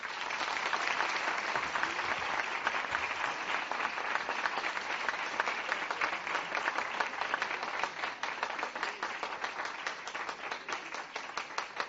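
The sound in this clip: Sustained audience applause as a speaker is escorted to the podium at a Persian-language event, an even wash of many hands clapping, fairly faint and unbroken throughout.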